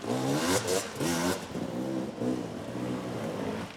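Dirt bike engine revving hard in several short, rising bursts as the rider climbs over four logs during a race.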